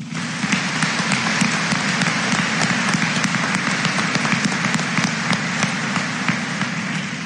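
Audience applause at a scholarship awards ceremony: dense, steady clapping from many hands that holds at an even loudness throughout without a break.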